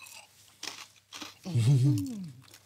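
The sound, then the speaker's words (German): A crisp bite and chewing, with a couple of short crunchy snaps and the crackle of something crunchy served alongside fig, cheese and honey, followed by a brief voiced sound. “Deswegen gehe ich mal so rein. Ist natürlich knusprig, wie man unschwer hören kann.”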